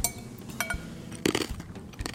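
Knife cutting a slice from a crusty roast pork shoulder, with faint crackly crunches of the crisp rind and light clinks against the plate.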